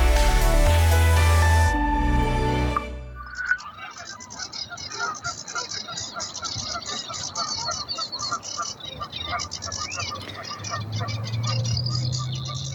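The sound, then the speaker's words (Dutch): Geese, a reed warbler and a Savi's warbler calling: a dense, rhythmic chatter of high-pitched notes and buzzing trills that runs continuously after a short stretch of different sound at the start. “Marjan Berg uit Pijnakker hoort ganzen en een rietzanger en de snor. Mooi hypnotiserend geluid”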